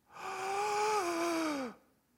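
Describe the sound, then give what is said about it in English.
A single long, voiced gasp, like someone catching their breath. It is a moaning, drawn-out tone held for over a second, with the pitch sinking at the end before it fades to near silence. “The sound must have gone on for hours as each person finally caught their breath and stood in front of Ezekiel”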